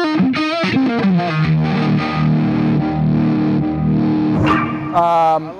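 Electric guitar through a distortion effects pedal, dialed in as a chewy, Hendrix-style verse tone: thick, buzzing sustained notes and chords ring loudly, with a sharp change of chord near the end and no talk.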